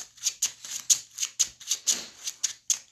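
Cards drawn from a deck during a deck-building card game: many crisp, rapid papery snaps and flicks in a steady, even rhythm, faint and alone with no talk.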